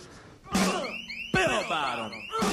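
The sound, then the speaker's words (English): A bank alarm goes off in a movie trailer: three loud bursts, each with sliding, falling tones, over a dense and fairly quiet soundtrack mix. “the alarm's going off at the bank.”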